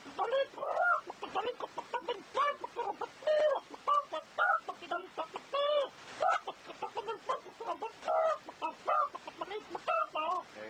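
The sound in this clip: A voice imitating a rooster with many short, rhythmic clucking calls in uneven bursts, fairly faint, with no other sounds.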